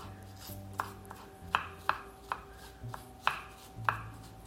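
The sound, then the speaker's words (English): A knife finely dices a celery stalk on a cutting board, landing several sharp, crisp taps at an uneven pace over a faint, low background hum. “So get out a stalk of celery and finely dice it.”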